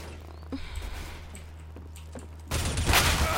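Shotgun fire in a video game: a few faint, scattered pops over a low hum at first, then a sudden loud, dense burst of gunfire that carries on to the end.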